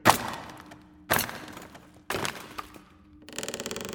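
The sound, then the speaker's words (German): Hammer and chisel blows pry at a heavy crate: three sharp, heavy strikes about a second apart, each ringing briefly before fading, then a quick run of small clicking cracks. “Mal sehen, ob wir das schwere Ding nicht aufkriegen. Und? Hast du was? Ja! Hier ist ein Hammer und ein Meißel.”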